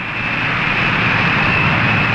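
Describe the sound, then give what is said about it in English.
Presidential airplane Spirit of 76 taxiing on the runway at Peking airport, a loud, steady engine roar with a thin high whine running through it. “Christened the Spirit of 76, taxis to a stop on the runway of the Peking airport.”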